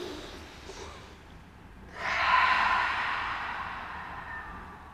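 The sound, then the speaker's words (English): A deep breath drawn in during a guided relaxation exercise: one long, airy inhale that swells quickly, then tapers off slowly, following quieter breathing. “Another deep breath in. One more like that. Inhale.”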